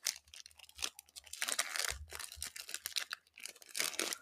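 Tearing open a Pokemon card booster pack: a crinkly, crackling foil rip made of many rapid bursts that swell and fade for several seconds, with no voices.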